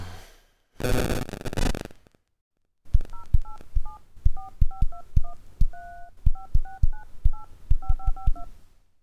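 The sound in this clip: Telephone dialing tones: a brief burst of noise, a pause, then a long rapid run of many crisp beeps at changing pitches, clear and loud with no talk.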